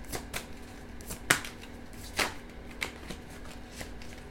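Tarot cards are shuffled and handled, giving a light, papery riffle broken by a few crisp flicks and snaps at irregular intervals. The sound is fairly faint, with no voices.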